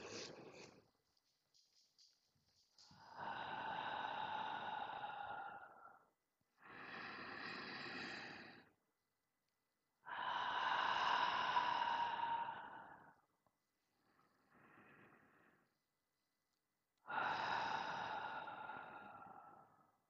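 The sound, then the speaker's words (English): Three slow, deep breaths, each a long, airy rush of air, with quieter breath sounds and short silences between them. Soft and unhurried, with no talk. “please close your eyes and let's take three deep breaths together.”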